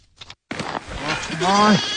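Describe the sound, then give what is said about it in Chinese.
Newborn Tibetan lambs bleating on a winter grassland pasture at about 3,000 m in Qilian County, Qinghai: a couple of high, wavering bleats that are loud and close. “在海拔约3000米的青海省海北州祁连县阿柔乡冬季草场上，新生的小羊羔们正在草原上嬉戏”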